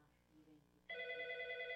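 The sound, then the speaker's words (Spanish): A telephone rings during a call-in church program, a loud, steady electronic tone that starts abruptly after a faint, murmuring lead-in and sustains evenly to the end. “Bueno, tenemos una llamada.”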